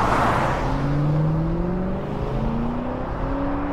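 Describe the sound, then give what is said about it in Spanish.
A car accelerates without slowing across a bridge at an avenue crossing in Aguascalientes. Its engine note rises in a few steady upward sweeps over a continuous rushing road noise. “Sin bajar la velocidad, decide pasar por el puente y acelera.”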